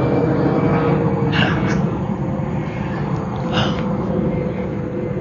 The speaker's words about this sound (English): okay, plane, you got it.